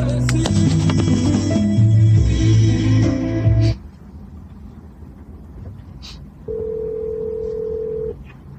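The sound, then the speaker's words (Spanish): A telephone call placed to a radio station: music stops abruptly, then after a hushed stretch a steady single-pitched phone tone sounds for about a second and a half over faint background hiss. “en este momento voy a llamar a la estación.”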